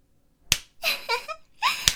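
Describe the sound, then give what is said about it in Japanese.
Two sharp, loud slaps on bare buttocks, spaced over a second apart, with vocal sounds in between. “お尻叩くたびにヒクヒクしてる。”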